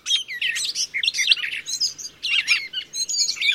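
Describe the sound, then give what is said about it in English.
Gray catbird calls: many quick, squeaky chirps and warbled phrases in short bursts, shrill and fairly loud, with brief gaps between runs. “Noisy and boisterous in the spring, a migrating flock of catbirds can fill a city park with sound.”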